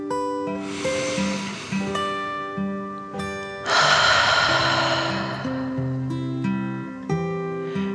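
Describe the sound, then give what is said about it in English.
A slow, deep breath in and out, voiced as a dragon in a calming bedtime story: a soft inhale followed by a louder, longer exhale, with gentle melodic music playing throughout. “Then Dragon smiled and took one more deep dragon breath in and out.”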